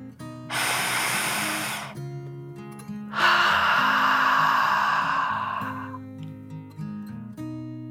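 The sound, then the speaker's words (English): A deep, slow breath in and then out: a long airy inhale, a short pause, then a longer, fading exhale, with soft, low, tonal music underneath. “taking one last deep dragon breath in and out.”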